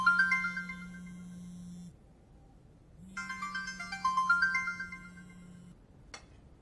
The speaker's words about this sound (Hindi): तो फोन क्यों नहीं उठाया?